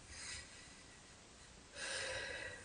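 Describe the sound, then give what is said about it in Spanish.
Deep breaths drawn in by a person during a prayer: soft, airy rushes of faint inhalation, the second breath longer and louder near the end. “Ahora respira profundo, profundo, profundo, profundo. Respira lo que más puedas.”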